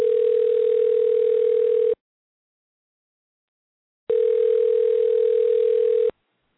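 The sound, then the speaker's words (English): A telephone tone follows a failed call: two long, steady beeps at one even pitch, each lasting about two seconds, separated by a gap of silence, with no voices. “Well, it dropped me. It said the call was not answered or it failed.”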